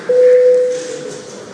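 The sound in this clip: A parliament chamber bell signalling a vote sounds as one loud, steady electronic tone. It holds for about two-thirds of a second, then cuts off, leaving only a faint background hum.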